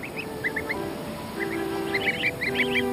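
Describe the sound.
Greylag goose goslings peep on a waterside meadow, short high chirps that are scattered at first and then come in quicker clusters over a steady low background.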